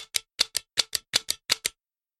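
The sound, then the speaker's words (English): Trigger clicks of a Nintendo Zapper light gun, ten crisp plastic clicks in five quick pairs, evenly spaced, followed by silence. “For those who can't see it, it's a Nintendo zapper. And I'll even prove that to you. If you're listening to this and you grew up in the 80s, you'll recognize this sound.”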